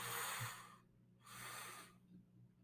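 Two deep inhales through the nose during a guided breathing exercise, each a soft, airy rush separated by a brief pause, quiet overall with a faint low hum underneath.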